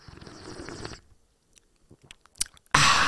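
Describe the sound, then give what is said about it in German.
A first sip from an espresso cup: a few soft clicks and slurps, then a sudden loud, noisy slurp at the end. “Ah, so richtig schlechte ASMR, Alter. Das okay. War der erste Schluck aus meiner Espresso-Tasse.”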